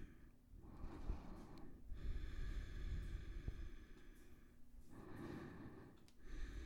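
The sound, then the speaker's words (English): Slow, heavy breaths are pushed out through the nose during a relaxing yoga session. A few long, soft, airy exhales swell and fade, separated by brief quiet pauses, faint and with no talking. “Massive exhales through your nose. Let it do its thing.”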